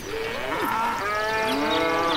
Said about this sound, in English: And these cows, what the hell?